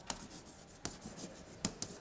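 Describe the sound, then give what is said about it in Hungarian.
Faint scratching of writing on a board during a lecture on transmission lines. A few sharp taps stand out from quiet, soft strokes. “Hát ide is írom magyarázatképpen”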